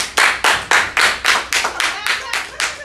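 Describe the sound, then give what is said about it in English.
Hands clap in a loud, sharp and fairly even rhythm, with many quick claps in a row. The beats loosen and soften slightly toward the end. “So hold on, this is what we're gonna do. We're gonna clap for that”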